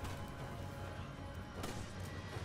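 A grenade explodes in a video game, one sudden sharp burst midway through over a dense, steady wash of game noise.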